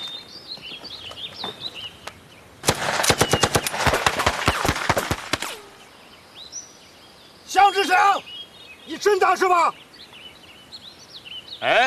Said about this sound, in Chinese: 机枪， 给我突突！